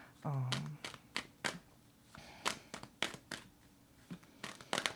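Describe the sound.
Tarot cards shuffled and drawn: a series of faint, crisp slaps and riffling bursts at an uneven pace, with a brief voice near the start.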